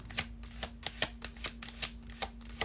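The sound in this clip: Tarot cards being shuffled to draw a card of the week: a rapid, even run of crisp papery flicks and riffles over a faint, steady low hum.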